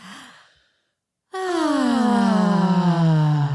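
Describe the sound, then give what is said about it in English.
A deep breath: a short airy intake followed by a long, loud, voiced sighing exhale whose tone sinks gradually lower as it fades out. “And this is your weekly reminder to take a deep breath.”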